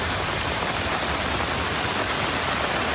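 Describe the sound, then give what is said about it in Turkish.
A heavy downpour hisses in a dense, steady, unbroken wash during a storm that floods roads and makes the drains overflow, with no distinct drops or other sounds standing out. “Sağanak yağış nedeniyle rögarlar taştı, sürücüler ilerlemekte güçlük çekti.”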